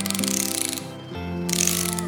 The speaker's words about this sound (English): There is a loose nut and bolt under the fender. But it's nothing my socket wrench can't fix.